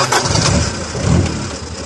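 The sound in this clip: A Toyota jeep engine starts up in a loud, continuous rumble that swells slightly partway through, with no voices.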